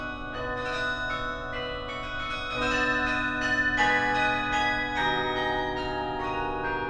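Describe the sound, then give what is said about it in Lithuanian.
Church bells or carillon bells ring from a tower in a series of overlapping resonant strikes, each leaving a sustained, shimmering harmonic tone that blends into the next, with no voices. “O varpai, kurie ar tai iš varpinės, ar iš karilionų bokštų kasdien kviečia vaduotis iš vienatvės ir nusiminimo spastų?”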